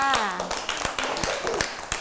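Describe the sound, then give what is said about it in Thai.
Applause for a young child after answering questions: a steady series of sharp hand claps, with a voice briefly heard at the start. “เก่งมากเลยค่ะปรบมือให้กับน้องข้าวตังหน่อยค่ะ”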